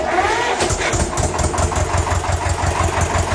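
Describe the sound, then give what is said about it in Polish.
A small farm tractor engine is started and runs as a loud, continuous rumble with a rapid knocking pulse throughout, holding steady without pauses. “Odpalimy sobie zaraz naszego ciągniczka.”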